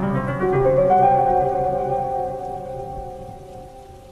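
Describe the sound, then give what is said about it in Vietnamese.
Rain with whistling wind at night beside a graveyard: a tonal, whistling moan slides upward in pitch and then holds over a dull, steady wash of rain, gradually fading. “hòa cùng với tiếng mưa và tiếng gió vi vút”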